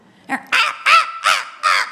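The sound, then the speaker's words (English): A crow or raven caws five times in a harsh, rasping, evenly spaced series, the first call shorter and fainter than the loud ones after it. “Is there any bird more obnoxious than a raven or a crow?”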